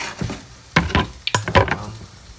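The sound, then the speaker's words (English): Spam frying in a pan, with several sharp scrapes and clacks of a utensil against the pan over a faint sizzle, spaced irregularly and clustered toward the middle. “The Spam isn't cooking evenly.”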